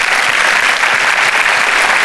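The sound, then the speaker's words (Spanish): Loud, dense applause from an audience during a church sermon, a steady wash of many hands clapping for the full two seconds with no pauses. “Un aplauso a Dios, que Él se lo merece.”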